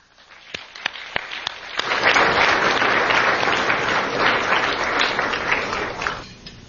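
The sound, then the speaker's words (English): Audience applause welcoming a panel and its moderator at a Washington, D.C. event: a few scattered claps build into loud, dense, steady clapping, which then drops away at the end. “Let's give them all a warm welcome.”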